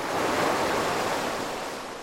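Sea waves splash and wash in a dense, steady rush of salt water. The sound is full and hissing, swelling at first and then easing slightly, with no voices.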